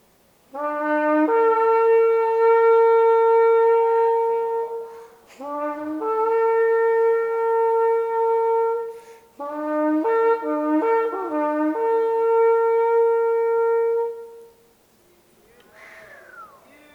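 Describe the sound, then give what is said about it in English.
A horn sounds three long, rich, sustained blasts with strong harmonics, each held for several seconds with short gaps between, then falls quiet. “Let me give you a sound with this horn. This horn's got such a rich sound.”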